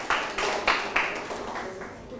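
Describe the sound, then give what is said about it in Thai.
A classroom of students gives a group a short round of scattered handclaps. A few distinct claps stand out and fade quickly beneath a teacher's speech. “ปรบมือให้กับกลุ่มที่3นะครับ”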